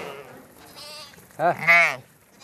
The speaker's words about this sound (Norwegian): På bøen til Brånås Kleppe kommer sauene springende når han kommer med kraftfôr